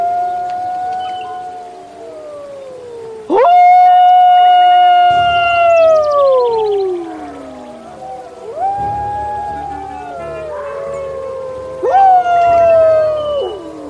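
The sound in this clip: Wolves howl in long, overlapping tonal calls. Several voices glide downward in pitch, loud and continuous, with no talk.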